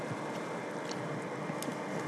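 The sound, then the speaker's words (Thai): An electric mixer whirs steadily as it beats a batter smooth, a continuous even hum with no breaks. “เราก็จะเอาเครื่องปั่นผสมเนี่ยเป็นตัวช่วยในการปั่นผสมเพื่อให้เนื้อละเอียดขึ้นนะอันนี้เราก็จะเริ่ม”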